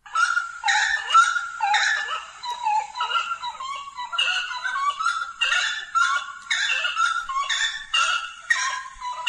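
An unidentified bird gives many harsh, honking, yelping calls in quick succession, repeating almost without pause at a fairly steady loudness, with no voices.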